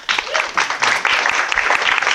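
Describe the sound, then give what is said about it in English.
An audience at a startup founders and investors event applauds with steady, dense clapping that lasts about two seconds. “So, quick round of applause for Annie.”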